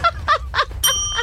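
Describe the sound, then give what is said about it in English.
A bell rung once during a guessing game, a bright ding that follows a few spoken words and keeps ringing on to the end as talk continues. “You reached that bell a little too soon.”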